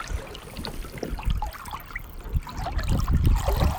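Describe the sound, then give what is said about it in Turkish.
Water trickles and sloshes around a canoe moving across open water, with soft irregular splashes that swell and fade over a low watery bed, heard alone without talk. “Evet evet, bir kanonun üzerindeyiz. Hadi açılalım.”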